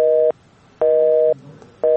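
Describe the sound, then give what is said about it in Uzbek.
A telephone busy tone plays after a call is cut off, giving loud, steady mid-pitched tone bursts that repeat in an even on-off rhythm with short silent gaps between them. “Ammo u Ozodlik radiosidan qo'ng'iroq qilayotganimizni eshitishi bilanoq aloqani uzib qo'ydi.”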